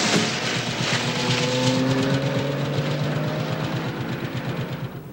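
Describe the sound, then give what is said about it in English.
Car engine rumbling as the vehicle drives off at night, a steady low drone with a fast rhythmic pulse that holds fairly loud throughout. “He's pulled into the car, which drives off into the night.”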